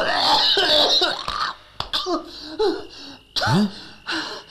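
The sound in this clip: Wet, harsh coughing from a person bringing up phlegm with blood: a few rough bursts broken by throaty, gasping breaths, fairly loud and uneven in rhythm.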